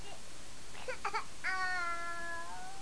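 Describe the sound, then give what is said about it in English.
A tired baby fusses and whimpers softly, letting out a few short catching whimpers before a longer, wavering cry. The sounds are faint over a quiet background. “now you're getting a little fussy because you're tired”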